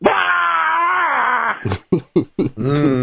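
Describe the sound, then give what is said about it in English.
A person screams on finding a flat tire with a nail in it, a strained, held vocal tone of about one and a half seconds, then a few short vocal bursts. “my scream, not wonderful”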